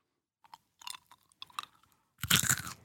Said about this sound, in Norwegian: Så skal jeg ta det i munnen, så skal jeg tygge med munnen åpen.